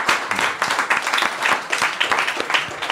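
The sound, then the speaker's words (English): Applause for the Folk School Coffee Parlor rises from a small audience in an intimate listening room, with many hands clapping in brisk, overlapping bursts that pulse unevenly in loudness. “I'd like to give a round of applause to the Folk School Coffee Parlor for this place.”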